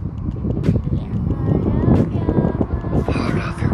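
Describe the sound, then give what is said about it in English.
Wind blowing into a microphone outdoors on a suddenly gusty day, a loud, steady low rumble and buffeting that fills the whole clip with a rough, fluttering roar. “Now, it's so windy, I'm so sorry.”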